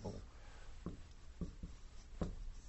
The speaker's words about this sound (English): But I'm going to embarrass myself now. I do not draw maps well.